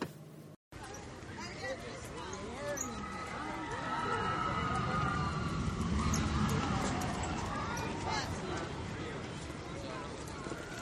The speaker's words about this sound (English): Of course, that's the sounds of Expedition Everest. Now, as you know, I'm not a roller coaster rider, but my family rode on it and was telling me how great it is and just how amazing. But from the outside, it does sound pretty cool, I'd have to say that.